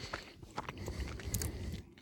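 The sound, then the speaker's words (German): Chewing a small piece of very soft Gouda cheese: faint, moist mouth sounds and soft, rhythmic bites continue steadily, with no talking. “Und ich habe mal ein Stückchen abgeschnitten, ist natürlich sehr, sehr weich, muss man einfach so sagen. Und ich probiere jetzt einfach mal.”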